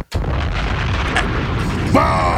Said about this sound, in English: Bombs! Bombs!